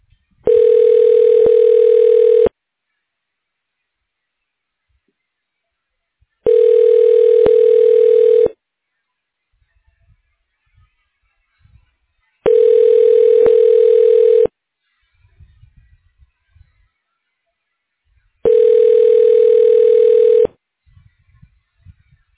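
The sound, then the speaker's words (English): Telephone ringback heard while a call is transferred: four identical two-second rings, evenly spaced with long silent gaps, each a steady buzzy mid-pitched tone at the same loudness. “To reach the staff of Drs. Sable, Meehan, Hakla, please hold while I transfer your call.”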